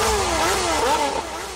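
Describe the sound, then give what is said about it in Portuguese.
Motorcycles accelerating and revving, more than forty bikes on the road: a loud, buzzing engine note that wavers, climbs sharply in pitch near the middle, then eases off and drops slightly in level. “Mais de 40 motas acelerando a radial. Mais de 40 motas acelerando a marginal.”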